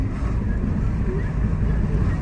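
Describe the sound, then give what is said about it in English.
A township taxi carries passengers to Ndamukong Street, filling the cabin with a steady, heavy low rumble of engine and road noise. The rumble stays loud and even without clear breaks. “We are now inside Township Taxi, that's driving us to Ndamukong Street, which is where the customer is located, and we are going to deliver the wine.”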